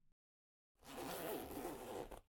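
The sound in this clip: A zipper pulled down on trousers in one continuous rasping draw lasting more than a second, fairly quiet and heard alone after a brief tick at the start.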